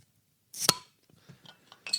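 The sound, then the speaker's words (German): A glass beer bottle being opened: one sharp, bright pop-clink, then a few faint clinks, and a second bright clink at the end. “Aber jetzt müssen wir uns halt irgendwie vom Mikro wegbewegen, um das Bier aufzumachen.”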